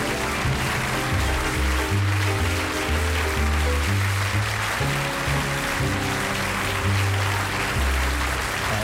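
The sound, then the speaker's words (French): Dense, steady applause lasting about nine seconds after a popular French song, with a low musical line running beneath it. “Il y a 10 secondes d'applaudissements.”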